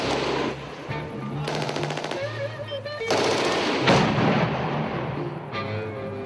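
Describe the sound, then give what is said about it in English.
Machine-gun fire in combat, with several sustained bursts of rapid rattling shots over a continuous rumbling background. “Shots. Right now from 1705, vicinity 2216.”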